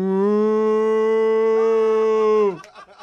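A person imitates a cow's moo with one long, loud, steady low tone held for about two and a half seconds. The tone then drops sharply in pitch and cuts off, followed by a few brief faint sounds.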